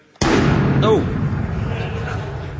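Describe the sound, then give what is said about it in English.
Gunfire from enemies firing back: one sudden, loud blast that rings out into a long, rushing tail that slowly fades. “Oh! Oh, they're firing back at us.”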